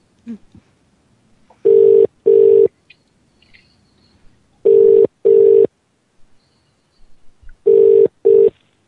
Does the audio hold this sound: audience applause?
no